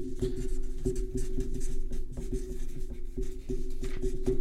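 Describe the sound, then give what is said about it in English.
Pens scratching on paper as several people write feverishly, a busy run of quick, dry strokes that keeps going without pause, with no talking. “I hear everyone feverishly writing.”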